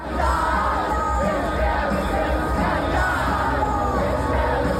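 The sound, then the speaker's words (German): A fairground crowd at the Erlangen Bergkirchweih cheers and parties to a song, a dense, steady roar of many voices shouting and chanting together at constant loudness throughout. “man hört, die Leute haben auf der Erlanger Bergkirchweih erst recht zu dem Song abgefeiert”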